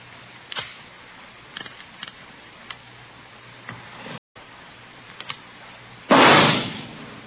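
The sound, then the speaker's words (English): A single test shot from a .38 caliber revolver fired into a ballistics box in a police lab: a loud, muffled blast near the end, preceded by a few faint ticks and clicks. “have just heard a test bullet fired from a .38 caliber revolver found in the possession of a suspect.”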